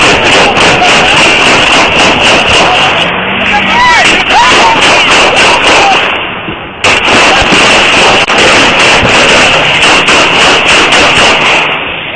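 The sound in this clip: Rapid gunfire during a police stop: a dense, loud run of cracking shots with a brief dip near the middle, and voices under the barrage.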